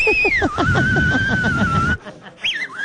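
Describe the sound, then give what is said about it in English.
A man whistles a clear, piercing note that slides down and then holds steady for over a second, over voices. After a brief break, a shorter wavering whistle follows. “So then there's always a guy who whistles.”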